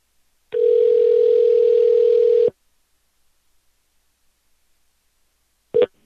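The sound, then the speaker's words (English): A telephone dial tone sounds as a number is being dialed: one steady, clean tone lasting about two seconds that cuts off abruptly, then silence and a brief tone burst near the end. “I'm dialing.”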